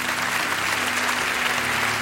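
A church audience applauds after a prayer, a steady, dense, even clapping that holds at full strength throughout without a break.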